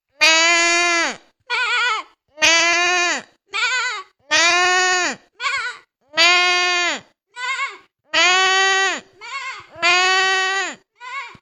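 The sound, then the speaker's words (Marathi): A human voice imitates a sheep bleating: loud, wavering nasal bleats, each long cry followed by a shorter one, repeated in about six evenly spaced pairs with silence between them. “मी मेंढीचा आवाज काढून दाखवणार आहे.”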